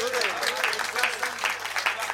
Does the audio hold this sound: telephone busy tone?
no